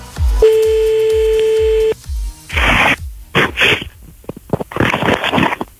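A telephone ringback tone on an outgoing call: one long, steady electronic tone of about a second and a half over a thumping bass beat, followed by several bursts of crackly line noise.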